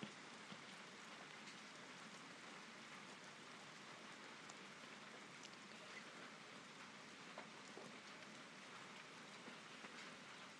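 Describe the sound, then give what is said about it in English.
Rain falls outside the patio doors at the back of a house as a soft, steady, even hiss, with faint scattered drop ticks and no voices. “I actually love the sound of the rain when I don't have to go out in it.”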